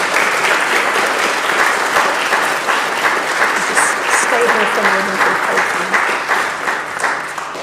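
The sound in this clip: A church audience applauds a newly baptized and confirmed member with full, sustained clapping that stays loud throughout, while faint voices surface briefly in the middle.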